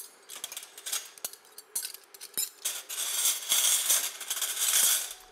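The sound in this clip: Deep and flat plates clink and clatter as they are handled while setting up a harvest meal for nine people: many light, irregular knocks, growing into denser rattling in the second half, with no talk.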